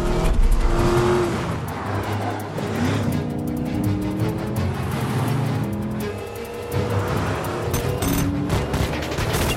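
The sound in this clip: Engines roar as cars race in a chase. Loud, continuous motor noise with shifting revving tones swells and dips throughout, dense and unbroken, with no speech.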